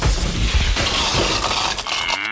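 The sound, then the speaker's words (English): A cow's moo, loud and drawn out over about two seconds, with a rough, noisy texture throughout and no voices. “Look for the little blue cow.”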